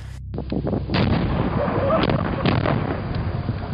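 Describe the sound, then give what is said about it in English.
Giant bombs explode in heavy, deep blasts, several booming bursts rolling into one another in a loud, continuous roar. “So in response, they dropped giant bombs on them.”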